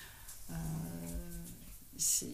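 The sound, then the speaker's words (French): A dog yawning, drawn out into a long whining, harmonic vocal tone that trails off into breathy noise, followed by a brief sharp burst of noise near the end. “On vient d'entendre Monsieur Buzz, voilà. Qui est le chien de Dominique Arthur, qui baille.”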